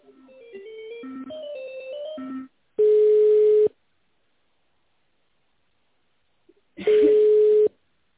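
Telephone line tones while a call is transferred: a short run of shifting electronic beeps of varying pitch, then two steady low ringback tones, each lasting about a second, separated by a long silence.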